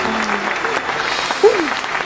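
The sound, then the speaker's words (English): Audience applause on a movie talk show: steady, dense clapping that fills the whole stretch at a moderate level, with a faint voice-like tone drifting over it. “I love that clapping. It makes me feel good coming in every single time.”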